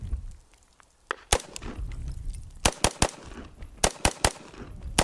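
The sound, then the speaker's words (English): Rapid semi-automatic gunfire with the trigger pulled as fast as possible: sharp, loud cracks, a single shot and then quick clusters of many shots in fast, uneven succession. “In the first two cases, he's pulling the trigger once, pauses once, and then he's just shooting it as fast as his trigger can go. And you can go all kinds of different ways when you have semi-automatic.”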